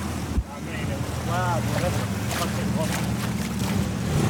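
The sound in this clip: A boat moving over water, out on a conflict-zone waterway, makes a steady rushing wash with wind buffeting and a continuous low engine drone, while faint voices come through in the background.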